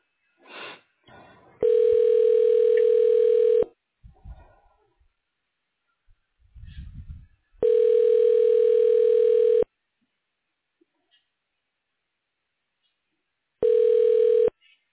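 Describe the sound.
Telephone ringing tone while a call is transferred to voicemail in an office phone system: three long, steady, evenly pitched bursts of about two seconds each, separated by gaps of near silence with a few faint, brief noises.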